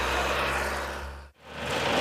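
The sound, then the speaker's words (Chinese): A rotary tiller engine runs at full power in a farm field, a loud steady mechanical drone that cuts out abruptly for a moment midway, then returns and builds back up. “全耕机马力全开，不到半小时的时间就将一亩多的农田耕完。”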